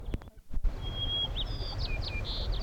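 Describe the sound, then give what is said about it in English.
White-crowned sparrow song: a few sharp clicks, then thin high whistled notes and several short slurred phrases, moderately faint over a low background rumble. “White crowned sparrow”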